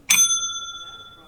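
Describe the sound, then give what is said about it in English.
A bell struck once, a bright metallic ding that rings on as a clear sustained tone and slowly fades away. “Oh, the bell. Yeah. Here we go.”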